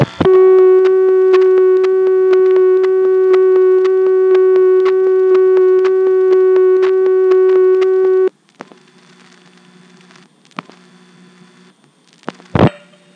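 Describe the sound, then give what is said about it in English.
Through a Hague NX2 telephone exchange, a call dialed into a direct trunk to Colonial Beach produces a steady, loud line tone for about eight seconds. It then cuts to faint clicks and line noise, ending with a sharp click burst. “As you just saw, the Hague NX2 let me dial 3 digits, and then it just dumped me into the direct trunk to Colonial Beach.”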